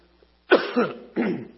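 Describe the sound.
A person coughs and clears their throat in two rough, throaty bursts, the first with a doubled push, heard alone with no talk over it.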